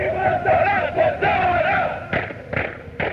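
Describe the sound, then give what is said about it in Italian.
A crowd chants a marching song in unison while stamping their feet. The loud, sustained voiced chant is broken near the end by three sharp, heavy thuds of stamping. “Qui si canta mentre si cammina, sicuramente, perché questa è una marcetta che loro fanno marciando, battendo i piedi, più che altro trum trum si sente il rumore.”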